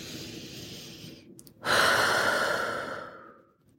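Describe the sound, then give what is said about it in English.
One deep breath taken as a calming pause: a soft, airy inhale through the first second and a half, a brief stop, then a long, loud breathy exhale that slowly fades to quiet. “remembering to take a moment to just breathe. We should do that now.”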